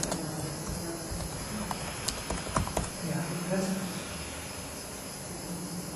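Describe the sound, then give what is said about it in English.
Light tapping of keys on a computer keyboard, faint and scattered over a steady hissing background with a high insect-like whine. “Here? Yeah, you're typing there.”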